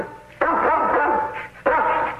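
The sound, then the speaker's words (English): A pet dog barks in two loud, drawn-out bursts, each wavering and full-toned, separated by a brief dip in loudness. “your dog looks just like ours. Trap, be quiet.”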